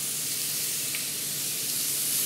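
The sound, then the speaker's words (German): Beef steaks for tagliata di manzo sear in a pan with a steady, loud, bright sizzle that holds evenly throughout, with no voices over it. “Steaks für die Tagliata di Manzo, ein italienischer Klassiker.”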